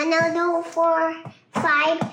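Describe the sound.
A four-year-old boy's high-pitched voice, heard in three short bursts of vocalising with bright, clear harmonics.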